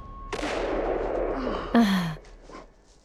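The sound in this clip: A single loud gunshot from a hunting rifle on a snowy mountain hunt: a sharp crack that rolls on in a long, noisy decay, followed by a brief breathy exhale.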